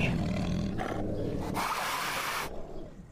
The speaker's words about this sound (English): And then with its second action, does a lion roar.